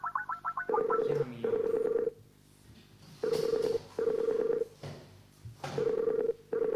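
Outgoing telephone call being placed: a quick run of short electronic dialing beeps, then loud, steady ringback tones in paired bursts separated by pauses, with no talking.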